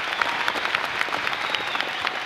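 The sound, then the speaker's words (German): Audience applause at a talk, a dense and steady wash of many hands clapping that holds at an even level throughout, with no voices standing out. “Nicht enden wollender Applaus.”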